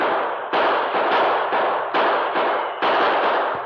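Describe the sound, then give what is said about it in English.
Gunfire in a gunfight across open ground in the Yukon, with bullets ripping into a wooden barrier: several rough, cracking bursts in quick succession, each trailing into a noisy tail. “The gunfight continued without any let-up”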